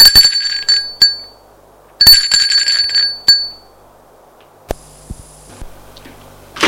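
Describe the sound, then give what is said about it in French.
A doorbell rings as a father arrives at a door upstairs: two bursts of bright, high metallic ringing, each with a few quick strikes, followed by scattered faint clicks and knocks in quiet. “Arrivée à l'étage, le père sonne à la porte.”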